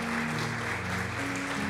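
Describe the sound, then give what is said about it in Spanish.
An audience applauds at a Spanish-language church service, a dense, steady wash of clapping over a low, sustained tone. “Denle un fuerte aplauso al Señor.”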